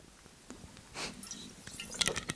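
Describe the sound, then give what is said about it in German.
A quick sip of a drink: faint, soft mouth and swallowing sounds with a few small wet clicks toward the end, quiet and with no talk. “Ich hoffe, das hört man jetzt nicht so laut. Mal eben einen Schluck trinken.”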